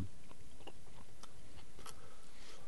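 Crunching bites on a hard, solidified breadstick: several sharp, dry cracks spaced over a few seconds against a low background of chewing.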